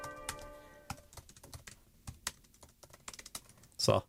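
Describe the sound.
Someone types rapidly on a computer keyboard while writing emails, producing many quick, fairly quiet key clicks in an irregular, busy rhythm, with a brief louder burst at the end.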